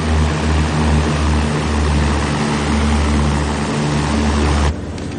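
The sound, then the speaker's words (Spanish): Light propeller aircraft flying over the sea at night near the Cameroon–Nigeria border in a 2003 war film scene, a loud, steady engine drone with a low humming tone, dropping abruptly to a quieter level near the end. “Por la noche, una avioneta sobrevuela por el mar, junto a la frontera de Camerún con Nigeria.”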